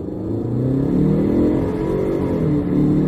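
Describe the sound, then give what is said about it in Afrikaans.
Engine revving from a Chinese front-wheel-drive SUV with a Mitsubishi-based 2-litre turbo petrol engine and eight-speed automatic. A loud, steady low rumble swells slightly in the middle, then eases back. “Al drie modelle kom met 'n Mitsubishi gebaseerde 2 liter petrol turbo en trek met die voorwiele.”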